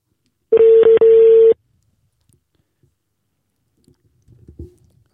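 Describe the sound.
A phone call ringing out on speakerphone: a loud, steady, mid-pitched ringback tone sounds in two close pulses, followed by near silence with a few faint rustles and knocks.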